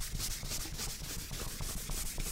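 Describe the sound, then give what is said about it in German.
A cloth polishing dried paint bound with egg white, heard as brisk, evenly repeating rubbing strokes that form a continuous scratchy swish with no voices. “Die Farbe ist mit Eiweiß angemischt, damit sie gut haftet. Nach dem Trocknen wird sie mit einem Tuch poliert. Das mache ich mal.”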